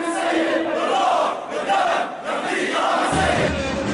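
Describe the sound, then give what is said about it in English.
Crowd in the streets of Homs at a tribute to killed journalists, shouting and chanting together in a loud, continuous mass of voices over a few seconds. “This is the sound of a tribute to the killed journalists this week in the streets of Homs.”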